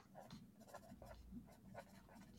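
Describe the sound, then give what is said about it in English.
Pen scratching on paper as names are written down, a steady run of many short, dry strokes with no talk over it. “And I'm writing my names down. I'm gonna write my names down.”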